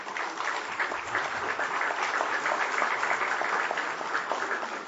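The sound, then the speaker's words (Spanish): Applause at an award ceremony for sustainability in the Peruvian Amazon: an audience claps steadily and densely for the whole five seconds, keeping an even loudness without a clear build or fade. “a quien pido un aplauso”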